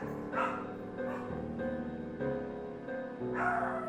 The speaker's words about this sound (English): My dogs are losing their mind.